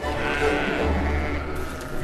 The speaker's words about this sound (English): North Country mules are very calm sheep. But when they came into the auction ring, there was some evidence to suggest they're not.